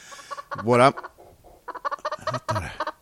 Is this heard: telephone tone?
no